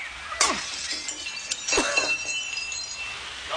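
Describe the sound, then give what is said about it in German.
A workshop window is smashed in by a thrown paving stone, a sudden crash of shattering glass followed by a second loud burst and scattered tinkling shards. “Wir müssen das Werkstattfenster einschlagen und durchs Fenster einsteigen.”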